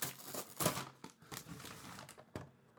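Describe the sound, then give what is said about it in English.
Paper gift wrapping is ripped off a moderate-sized box in a series of sharp crinkling tears and rustles. The bursts are irregular and fairly quiet, with no talk. “And why don't you go ahead and rip that sucker open?”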